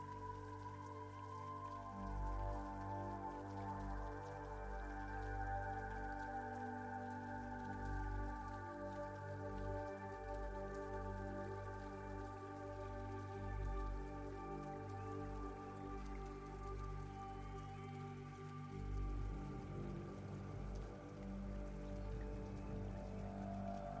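Steady rain falls with dense, even patter and drips, holding a constant soft level throughout with no voices.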